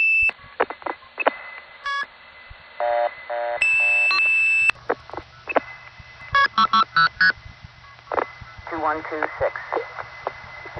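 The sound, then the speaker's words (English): Multifrequency key pulse tones sent into a telephone switching sender, which answers with a reorder signal after rejecting the off-frequency tones: a string of short electronic beeps and tone bursts, some brief and clipped, others steady, with abrupt starts and stops. “you can hear as I hit key pulse in this next example, I get immediate reorder from the sender because it doesn't like my frequencies.”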